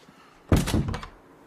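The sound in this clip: A door swings shut with one solid, dull thunk and a short trailing rattle. It is fairly quiet and heard alone, with no voices.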